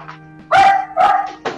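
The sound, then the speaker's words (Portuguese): A dog barks: two loud, tonal barks close together, then a shorter, weaker yap, with a faint low hum underneath. “Desculpa, meu cachorro.”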